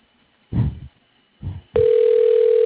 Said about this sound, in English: Thank you for calling Respiratory at Home. And your call is being transferred.